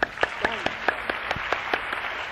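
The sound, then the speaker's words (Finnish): Applause from a church audience welcoming a visiting Baptist church leader and choir: several sharp, evenly spaced claps in a steady rhythm, moderately loud, with a faint murmur of voices beneath. “Varmaan annamme näille ystäville aplodit.”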